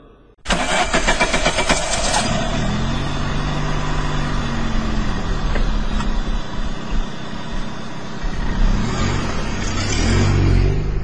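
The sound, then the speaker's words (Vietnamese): A Renault Sport car engine starts abruptly, then revs and runs loud and steady as the car pulls away, swelling again toward the end. “rồ máy, xe từ từ ra lộ rồi dông mịt.”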